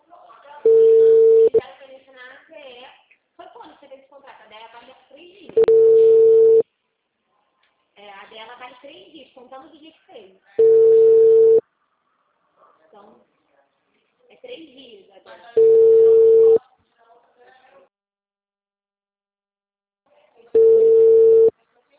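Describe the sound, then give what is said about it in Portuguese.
Telephone busy signal: five loud, steady tone bursts at a single pitch, each about a second long and evenly spaced. Stretches of recorded voice fill the gaps between them. “O número discado não está atendendo. O número está ocupado.”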